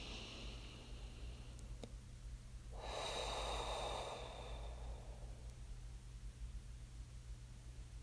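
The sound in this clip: A single long, deep breath: a soft, airy rush that swells and fades over a few seconds above a steady low hum, with no talking.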